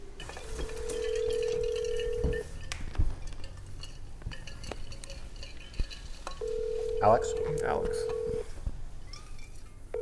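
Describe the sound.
An unanswered outgoing telephone call produces two long, steady ringback tones separated by a pause of several seconds. Faint clinks and scattered background noise fill the gap between the rings.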